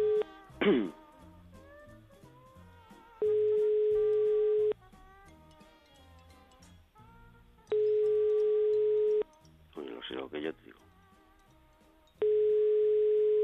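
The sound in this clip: A telephone call rings out to a landline: a steady, pure ringback tone repeats three times in long, even blocks over quiet background music, with brief louder noises in the gaps.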